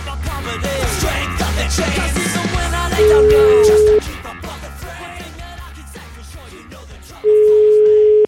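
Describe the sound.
Two long, steady beeps of a telephone line tone as a call is placed, each about a second long and separated by a few seconds, sounding loud over continuous background music.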